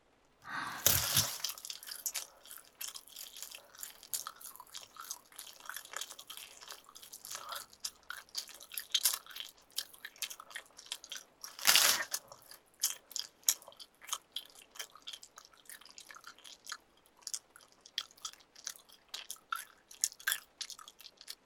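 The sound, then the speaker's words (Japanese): Wet chewing and biting of meat, with many crunchy, squelching bites in an uneven rhythm and two louder, sharper crunches, one near the start and one midway. “裏側のお肉も全部食べるね。”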